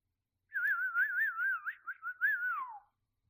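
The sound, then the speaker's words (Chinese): A person whistles a tune alone: a clear, high, warbling melody with quick trills that ends on a falling glide. “主人的口哨声很好听吧？真的很好听呢，好听到想永远听下去，”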